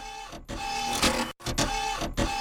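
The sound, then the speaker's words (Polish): A lottery drawing machine set in motion gives off a loud, steady mechanical whirring and rattling with a constant hum, broken by a few short dips in level. “No dobrze, to już bez zbędnego przeciągania, tutaj maszyna losująca w ruch.”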